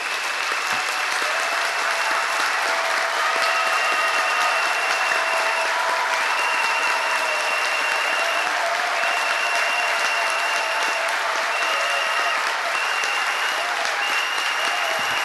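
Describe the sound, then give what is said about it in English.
An audience claps hands for the Lord during a praise and thanksgiving prayer service, producing dense, steady, continuous clapping that stays loud and even for the whole stretch. “Acclamons le Seigneur. Let's clap for the Lord.”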